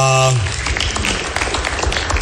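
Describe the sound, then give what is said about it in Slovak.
Studio audience applause after a correct answer on a quiz show, a loud burst of clapping that follows a brief voice and continues as a dense, crackling patter. “A to je správna odpoveď, dámy a páni. Zatleskajme si.”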